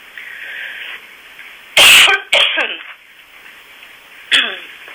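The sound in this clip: A woman clears her throat and coughs with something stuck in it: three harsh, loud bursts, the first two close together and a shorter one a couple of seconds later.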